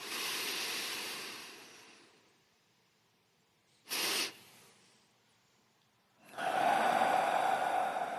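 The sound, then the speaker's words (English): Long, slow exhale during a breathing exercise: a drawn-out airy breath that fades away, a brief sharp puff after a quiet gap, then another steady breath rising, soft and with no talking. “Long, slow exhale. And again, one more time.”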